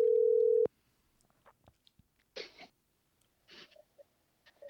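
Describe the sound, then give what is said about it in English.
A telephone dial tone sounds while a call is being placed: one steady, loud tone lasting under a second, then cut off and followed by faint scattered clicks and rustles. “When we do, we calling in. We calling in. Oh, yeah. Let's dial.”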